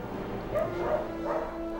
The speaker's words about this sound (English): Inside, dozens of dogs huddle in wire cages.